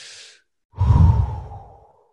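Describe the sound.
A deep breath drawn in during a posture exercise: one long, breathy rush lasting over a second, preceded by a brief, softer hiss, with no talk.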